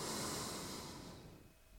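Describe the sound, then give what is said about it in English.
A big, deep inhale as a soft, airy breath hiss that starts at full strength and gradually fades away over about two seconds. “And one last time, big deep inhale.”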